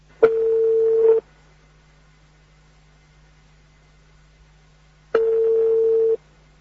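Ringback tone on a telephone line while a call is being connected: two steady, mid-pitched tones, each lasting about a second, separated by roughly four seconds of near silence, with no voices.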